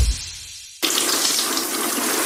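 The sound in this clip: Water is poured over a Triano BG bathroom cabinet. After a brief low rumble it bursts in suddenly as a loud, steady gushing splash.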